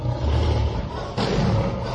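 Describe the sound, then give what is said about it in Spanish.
Tigers roaring at a traveling circus: a loud, rumbling roar that breaks off just after the first second, then a second roar that swells again and carries to the end. “Así rugen los tigres de la bella estrella alemana, Carmen Thunder.”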